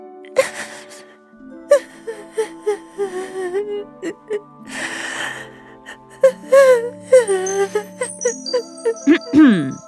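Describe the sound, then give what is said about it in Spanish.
A young woman cries, sobbing and wailing in many short, quavering bursts broken by gasping breaths, with a faint tinkling toward the end. “Cuando Cenicienta por fin las vio alejarse, rompió a llorar.”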